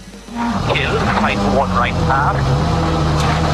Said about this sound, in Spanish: Un tramo que ya está recorriendo, por ejemplo, Takamoto Katsuta, que suena así en la radio.